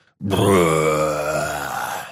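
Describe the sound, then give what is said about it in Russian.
A huge yeti's roar voiced by a person: a single deep, harmonic growling groan that starts abruptly, holds loud, then slowly fades. “Взревел огромный йети, нагоняя нас, а ледяное дыхание едва не задело мне голову”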